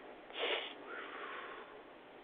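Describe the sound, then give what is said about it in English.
A deep breath in, then a long, slow exhale: a short, breathy rush of air followed by a softer, drawn-out outbreath, faint and alone with no talk. “take another deep breath in and exhale.”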